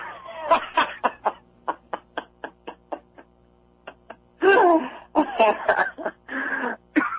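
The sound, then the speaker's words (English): Coughing and throat clearing: a rapid run of short, sharp coughs, then a pause, followed by longer, rougher bursts of coughing that may mix with laughter. “Oh, man, you made me cough.”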